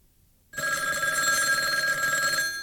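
A telephone ring tone sounds while a call is being connected at a company switchboard. It is a single steady electronic ring that starts after a short silence and holds to the end.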